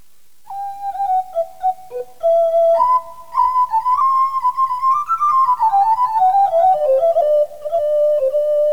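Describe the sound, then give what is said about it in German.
A piper's pipe plays a lilting whistled melody, clear and fairly loud, moving through held and stepping notes that climb toward the middle and then drift lower near the end. “halt doch, ach halt gleich dein Pfeifblasen an.”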